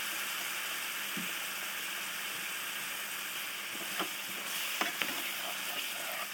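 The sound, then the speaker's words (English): A pan of onions being deglazed sizzles steadily while it is stirred, and a few light scraping knocks sound near the end. “A little bit more deglazing. And this should help the recent bit of onion.”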